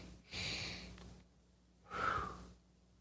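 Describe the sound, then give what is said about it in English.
Breathing exercise with a double inhale through the nose and an exhale through the mouth, heard as two soft breathy bursts, the second one sharper, with no talk. “The two inhales in through your nose and one exhale out through your mouth.”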